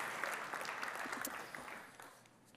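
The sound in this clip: Audience applause welcoming a friend onto the floor as a speaker, a dense, steady wash of clapping that stays faint throughout and thins slightly toward the end, with no voices.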